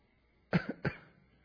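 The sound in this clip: A faint, short cough made of a few quick, rough bursts, alone against near silence.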